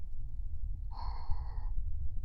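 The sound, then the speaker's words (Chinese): A deep breath taken while lying down to settle in for a quiet night: a single soft, breathy sound lasting under a second over a steady low rumble, with no voices. “好了，躺好，深呼吸，”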